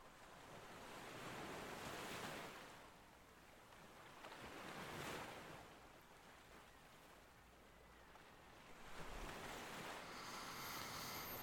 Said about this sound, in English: breaking and crashing into each other as they reach land. Just take a moment to hear them and enjoy this peaceful sound.